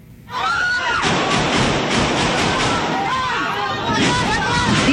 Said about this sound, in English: A chaotic scene erupted at the Philippines Senate today as shots are heard during an attempt to arrest a senator who allegedly committed crimes against humanity.